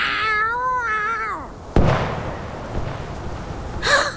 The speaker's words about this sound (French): T'as jamais vu une chatte qui se bat pour sa survie?